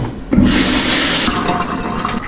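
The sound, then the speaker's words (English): Tap water running as hands are rinsed beneath it, a loud rushing splash that starts abruptly and carries on, turning more uneven and spattery toward the end. “Dump these eggshells out. And rinse my hands.”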